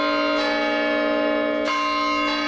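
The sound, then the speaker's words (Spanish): Bells of the monumental clock tower in Pachuca, Mexico, a stone tower over a century old, ring out in a few loud strikes over a sustained, humming bell tone. “Bueno, así suena el campanario de Pachuca.”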